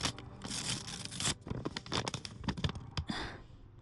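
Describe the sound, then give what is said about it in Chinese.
Paper tearing and crinkling as an envelope is ripped open to get at a letter, with a run of loud, rough rips and crackles of varying strength across nearly four seconds, and no talk. “你的信。哦，谢谢。你看是大连寄来的，赶紧拆开吧。”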